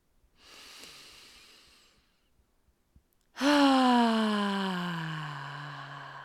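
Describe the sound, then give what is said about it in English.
A deep breath taken during a guided tapping relaxation exercise: a soft, drawn-out inhale, a brief pause, then a loud voiced sighing exhale whose pitch slides downward as it slowly fades. “Take a deep breath in.”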